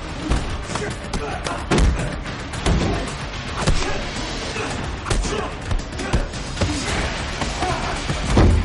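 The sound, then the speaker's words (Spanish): Punches, thuds and body impacts from a fistfight between two men in an action film scene, with many heavy hits packed densely together over a loud, busy background. “John le desarma. La secuaz encuentra a Santino. John pelea con el hombre.”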